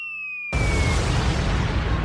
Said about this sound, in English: If you are incorrect, we will have to drop the bomb of truth on you, which will be this sound effect.